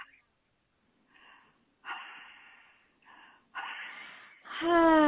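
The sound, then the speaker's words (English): A person breathing loudly on request: a series of rasping, noisy breaths of rising strength, the last turning into a loud voiced moan. “I don't hear your breath. I need to hear it a little louder. Little louder.”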